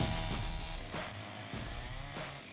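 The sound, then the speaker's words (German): A chainsaw cuts into a tree trunk as a professional carver saws out wild boar figures before a crowd at a timber merchant's spring festival. The engine drone is steady and buzzing, with a few pulses as the blade bites. “macht Kunst mit der Kettensäge”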